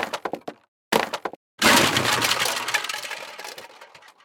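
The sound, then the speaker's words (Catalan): A heavy wooden staff being broken into pieces gives a few sharp dry cracks separated by brief silences, then a loud splintering break that trails off into scattered clattering and rattling. “El va partir en 4 trossos i el va llançar per la finestra.”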